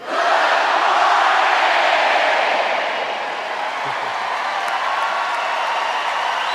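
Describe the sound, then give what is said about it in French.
An audience roars and cheers as a greeting sent to a crew in space. The loud, sustained crowd noise is mixed with whoops and scattered clapping, and it eases slightly partway through. “Eh bien, Bill, Valery, voici un petit salut pour vous de la part du public.”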